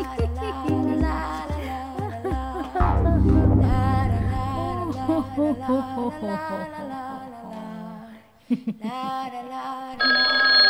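A telephone rings with an incoming call amid music. Bright, loud tones repeat at a steady pace, with no talk over them.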